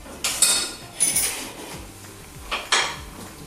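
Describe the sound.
Dishes and cutlery clatter in a home kitchen while a 28-year-old cooks the next day's lunch to pack in a plastic container for work. A few sharp clinks and knocks come in quick pairs over quiet background noise.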